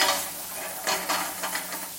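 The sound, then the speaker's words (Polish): Button mushrooms sizzle as they brown in a frying pan. A steady hiss runs throughout, broken by a few scraping stirs of a utensil. “Pieczarki też są ładnie zarumienione. Myślę, że za chwilę będzie ten moment, kiedy można dodać odrobinę tłuszczu, w tym wypadku oleju.”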